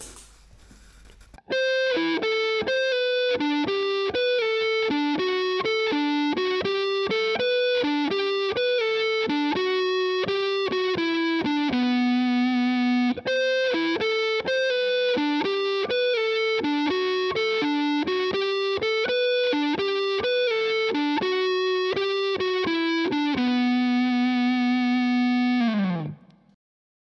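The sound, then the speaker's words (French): Electric guitar riff played slowly through a fuzz pedal, heavily distorted single notes and short phrases in a steady, deliberate rhythm, loud and alone, ending on a held note that fades out. “Je vous joue le riff en entier au ralenti pour vraiment bien voir les positions de doigts.”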